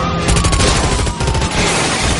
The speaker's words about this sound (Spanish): Los policías disparan los neumáticos traseros del camión.